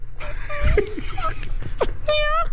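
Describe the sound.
A fox vixen in heat yelping, heard from a played recording: a few high, wavering, harmonic yelps and whining cries that bend up and down in pitch over a steady low hum.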